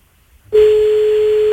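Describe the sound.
An outgoing telephone call rings: after near silence, one steady, pure electronic tone sounds for about a second at even loudness, then cuts off sharply.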